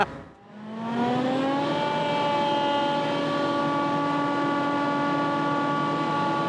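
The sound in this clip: A forage harvester runs with a loud, droning mechanical hum whose pitch climbs over the first couple of seconds, then holds as a steady whine to the end.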